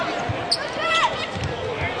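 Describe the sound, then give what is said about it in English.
A basketball bounces on the court during a bounce pass in a women's game, a couple of dull thuds standing out briefly over steady crowd noise and a commentator's voice. “Bounce pass down low for Ganton. Turns and shoots and scores.”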